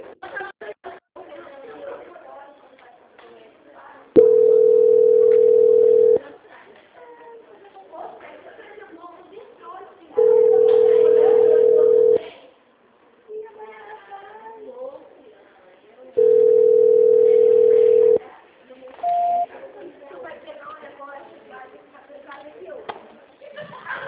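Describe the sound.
Steady telephone tones play while a call is being transferred: three long, even beeps of about two seconds each, then one short beep, with a person talking in the gaps between them.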